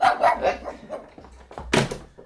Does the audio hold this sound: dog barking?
yes